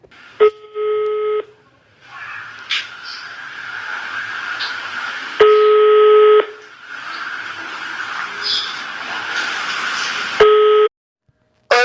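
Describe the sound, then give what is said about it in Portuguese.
Telephone call being placed: three steady electronic ringing tones, each about a second long and spaced several seconds apart, with a hissy, noisy line sound filling the gaps between them. “agora então eu vou ligar para ela.”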